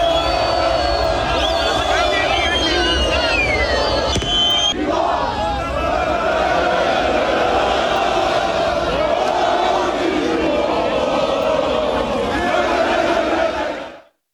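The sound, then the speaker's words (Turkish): Galatasaray football fans in a European city singing championship songs to celebrate a Süper Lig title, a loud, sustained mass of chanting voices that carries on unbroken before cutting off at the end. “Avrupa'nın birçok kentinde de Galatasaray'ın şampiyonluğu için kutlamalar yapıldı. Taraftarlar şampiyonluk şarkıları söyledi.”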